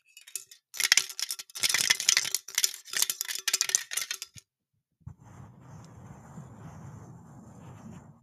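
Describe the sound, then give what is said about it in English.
A can tab, ripped off, jingles around inside a can: fast, dense metallic rattling in bursts for about four seconds, which stops abruptly, followed by a quieter, steady low rustle. “I'm going to rip the tab off and jingle it around inside.”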